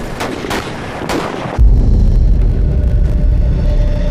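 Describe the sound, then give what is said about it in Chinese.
A few sharp gunshots crack out where advancing troops meet the enemy near a village, then a sudden loud low rumble takes over and holds steady to the end. “我们刚刚听到了枪声，应该是我们派出去的斥候与敌人遭遇了”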